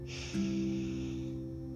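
A person inhaling slowly during a guided breathing exercise, a steady airy breath lasting over a second above a low, sustained musical drone.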